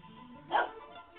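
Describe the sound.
One dog bark, a short, muffled yelp rising briefly out of a faint, low background hum. It sounds thin and narrow.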